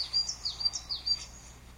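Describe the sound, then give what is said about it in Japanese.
Wild birds sing outdoors among Himalayan cedar and metasequoia trees, giving a string of quick, high chirps and short trills that come in several bursts, with a soft, steady background hush beneath them. “今日めっちゃ 鳥の声綺麗やんけ。”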